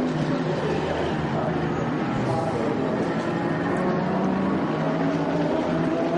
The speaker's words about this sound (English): Into the pits comes the Audi. Into the pits comes the Porsche.